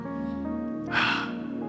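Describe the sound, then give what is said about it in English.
A deep breath during a guided moment: one short, airy breath rising briefly over a steady, sustained musical drone that plays throughout. “Let's take a deep breath right now.”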